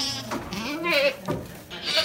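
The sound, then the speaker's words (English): Alpine and Saanen dairy goats bleat in a barn around morning milking, with several wavering, nasal cries overlapping one another, fairly loud and restless. “The 30 or so Alpine and Saanen dairy goats, her ladies as she calls them, get quite excited about the morning milking.”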